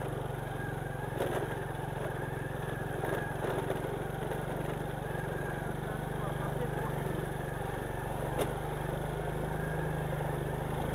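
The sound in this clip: Faint, steady engine hum from a Honda motorcycle climbing a slope in first gear. The low drone holds an even pitch throughout, with only a few brief ticks rising above it.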